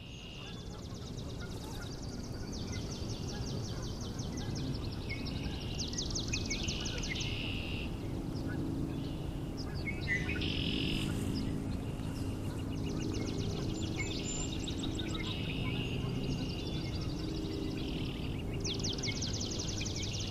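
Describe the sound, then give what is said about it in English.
Spring peeper frogs and a large flock of Canada geese call together. Shrill, high peeps repeat over a dense, continuous bed of honking, steady and fairly faint throughout. “we're getting some more frogs speaking up now. Spring peepers. Got an awful lot of Canada geese making a racket.”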